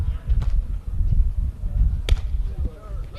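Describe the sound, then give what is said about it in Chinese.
A volleyball is served in a match by the Jinan team: two sharp, crisp hits stand out over a steady low rumble of crowd and court noise. “好，现在呢，比赛继续来进行。济南队的发球”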